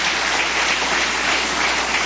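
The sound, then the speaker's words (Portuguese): A church audience clapping together, a dense, continuous patter of many hands that stays level and uninterrupted from start to finish. “Só aqueles que têm essa paz pode bater palmas, dar glórias.”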